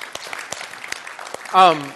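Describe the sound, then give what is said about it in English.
A church audience applauds with steady clapping throughout, and a single voice cheers briefly near the end. “So huge applause for our church.”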